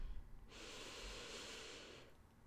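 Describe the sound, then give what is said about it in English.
A slow, deep breath drawn in, heard as a steady, airy rush lasting about a second and a half. It is quiet and heard alone. “Taking a deep breath in”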